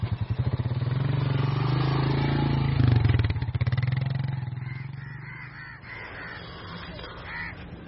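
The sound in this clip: A motorcycle engine runs as the bike is moved into a garage. A steady, pulsing idle surges briefly louder, then drops to a quieter rumble as the engine fades.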